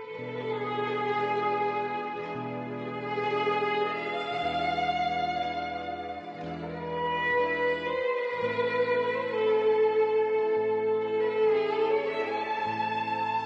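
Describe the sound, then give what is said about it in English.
A Stradivarius violin plays a slow, sustained melody rich in bright harmonics, over deeper held notes that shift every couple of seconds, continuing steadily. “let's hear just a little bit more of a Stradivarius.”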